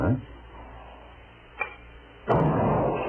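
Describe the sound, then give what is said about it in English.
A small ball released from a spring taps a target with one sharp, brief knock, followed shortly by a louder, sustained burst of noise. “as I let go of each spring, the ball will tap the target. So you listen very carefully and shoot as quickly as you can.”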